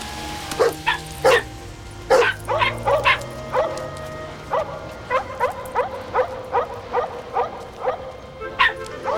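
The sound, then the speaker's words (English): Several dogs barking as they dash off: many sharp barks and high yips in quick bursts, with a few whimpering cries mixed in, loud and continuing throughout. “Kevin's dogs dash off.”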